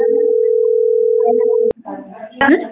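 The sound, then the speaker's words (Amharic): A telephone call tone, one steady mid-pitched sine tone held for nearly two seconds before it cuts off abruptly, followed by a person talking. “ስልክ እየደወልኩ ስለሆነ በዚህ ነው በዚህ ነው።”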